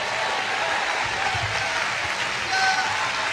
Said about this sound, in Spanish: desocupe las manos y dele un aplauso fuerte, glorificando al Señor.